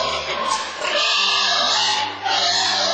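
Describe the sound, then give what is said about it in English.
Pigs oink and grunt in loud, overlapping bursts, rough and throaty, with a brief dip before the calls swell again. “Pigs are curious animals, they're loving animals, but they're all jumpy.”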